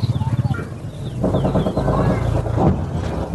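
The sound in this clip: Birds, sounding like chickens, cluck and call among orchards and gardens in Kandahar. The calls are short, repeated and chirping, with rhythmic pulsing at the start, then denser overlapping calls.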